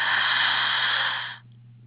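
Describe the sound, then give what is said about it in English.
A deep in-breath during a guided breathing exercise: a steady, breathy hiss lasting just over a second over a faint low hum, then cutting off fairly sharply, leaving only the hum. “So let us begin. One, two, three. Breathe in.”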